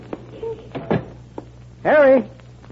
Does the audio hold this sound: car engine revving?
no

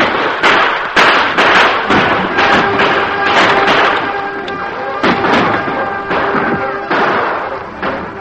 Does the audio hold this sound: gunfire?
yes

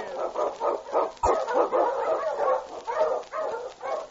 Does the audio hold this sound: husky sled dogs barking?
yes

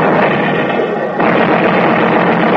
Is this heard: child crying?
no

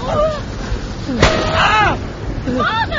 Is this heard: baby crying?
no

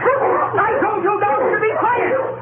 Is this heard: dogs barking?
yes

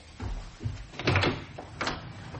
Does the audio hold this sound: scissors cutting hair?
no

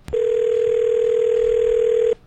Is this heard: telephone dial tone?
yes

